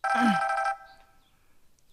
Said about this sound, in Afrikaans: antwoord sy die foon sonder om te kyk wie bel